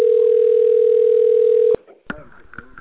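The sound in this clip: A loud, unbroken telephone line tone holds for nearly two seconds while a caller waits on hold, then stops abruptly, followed by faint clicks and brief voice-like sounds.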